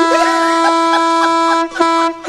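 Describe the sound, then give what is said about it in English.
A handheld air horn, blown at someone's face, blasts a loud, steady, buzzy tone for about a second and a half. It cuts off briefly and then sounds again. “was that an air horn? It was. You get an air horn to the face.”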